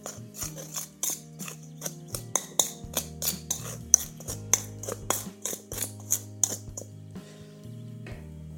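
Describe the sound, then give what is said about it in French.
Sugar and flour being mixed together for a crumble, heard as many gritty scraping strokes in a steady, regular rhythm, each stroke a short rasping scrape. “Je vais mélanger le sucre et la farine.”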